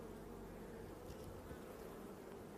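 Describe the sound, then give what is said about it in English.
Bees buzzing in an open beehive during an inspection in which a frame is pulled out to look for the queen: a dense, constant, low droning hum at a quiet, even level. “So to give myself more room to work in the hive, I'm going to pull this out, check if there's any queen on this frame.”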